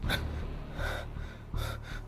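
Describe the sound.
A man panting heavily, out of breath after hurrying up, with a few sharp gasping inhalations and rough exhalations at a fairly low level.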